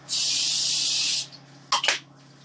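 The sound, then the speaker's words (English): Coconut oil cooking spray hisses onto aluminum foil that lines a tray for oatmeal cookies. One steady, bright hiss lasts about a second, and after a short pause come two brief, sharp clicks. “And what I may do with this is just spray it a little bit. I have some coconut oil spray.”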